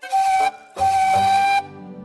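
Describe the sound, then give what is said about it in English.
Steam whistle of a big, strong tender engine sounds two loud blasts at a steady, bright pitch, a short one followed after a brief gap by a longer one, with no talk. “She is a big, strong, tender engine with a whistle that sounds like this.”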